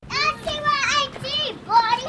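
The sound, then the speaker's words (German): Young children playing on the steps of a trailer in a temporary trailer settlement in Gulfport, Mississippi, their high-pitched voices chattering and calling out in short bursts. “Die 5 kleinen schwarzen Kinder spielen auf den Stufen des Wohnwagens, der ihr Heim ist.”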